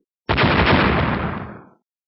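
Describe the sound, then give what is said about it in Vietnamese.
Several explosions go off almost at once, merging into one loud, dense roar that holds for about a second and a half before fading out. “Mấy tiếng nổ gần như đồng thời truyền ra.”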